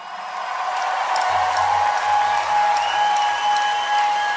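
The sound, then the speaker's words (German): Applause from a concert audience in a park after the final song: dense, steady clapping that lasts the whole stretch at an even loudness, with a faint sustained tone running above it. “Als der letzte Ton verklang, hallte minutenlanger Applaus auch diesmal durch den Park”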